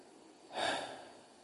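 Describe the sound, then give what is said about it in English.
A single breath exhaled by a man's voice, imitating Jesus breathing on his disciples: one soft, airy whoosh lasting under half a second, alone. “he didn't say he blew on him. So it wasn't like Jesus was like, like he was blowing out candles. He just breathed.”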